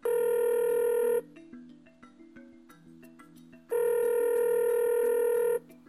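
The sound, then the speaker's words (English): Two long electronic ring tones as an outgoing telephone call is placed, loud and steady, separated by a pause of roughly two and a half seconds in which a quieter tonal backing continues. “You want to give him a call? Yep, dial him up. Let's do it.”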